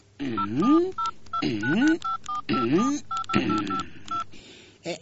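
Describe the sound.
Telephone keypad tones dial a number to place a call: many short electronic beeps come in quick bursts, sounding alongside a louder voiced sound.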